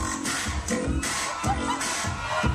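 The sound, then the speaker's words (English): Crowd noise cheering on Detroit dancers doing the JIT street dance, a busy mix of voices and shouts over a steady, thumping low beat that pulses regularly throughout. “That's the sound of a crowd cheering on Detroit dancers doing what's called the JIT.”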